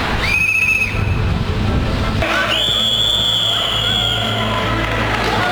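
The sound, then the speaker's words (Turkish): A wrestling referee's whistle, the same one used on traffic police duty, sounds two shrill, steady blasts: a short one and then a longer, higher one, both over a rough, noisy background. “Her ikisinde de düdükle başlatıp düdükle bitiriyorum. Ve koordineyi düdükle sağlıyorum.”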